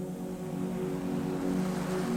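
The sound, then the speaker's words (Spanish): Storm waves and rushing wind around a small boat in heavy rain: a steady, loud wash of water noise with a low humming tone running through it and no distinct creaks. “El viento se levantó con violencia. Las olas comenzaron a crecer y la barca crujió como un árbol en plena tormenta.”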